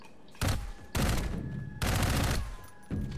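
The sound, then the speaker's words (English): Loud bursts of rapid automatic gunfire in a video game shoot at the player, arriving in four dense volleys one after another, with a steady faint hum running underneath. “Ah, hey, you're shooting at me.”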